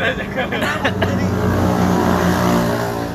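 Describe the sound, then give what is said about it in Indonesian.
Car engines revving loudly near a MotoGP circuit where street racing happens, a continuous throaty roar with a layered low drone and a higher whine, staying loud throughout. “Kebetulan ini dekat arena MotoGP ya. Enggak, iya. emang suka drak-drakan di sini.”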